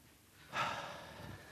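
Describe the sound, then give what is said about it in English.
A single deep, audible breath is drawn and let out by a speaker addressing a church audience. It swells to a breathy peak, then fades slowly, and nothing else is heard. “Big breath.”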